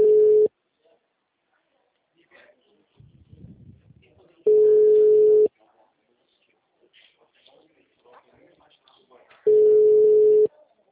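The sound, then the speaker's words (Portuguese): Telephone call tones ring out on a number that goes unanswered: three steady, mid-pitched beeps about a second long each, spaced roughly five seconds apart, with faint low rustling in the gaps. “Tentando ligar para ele.”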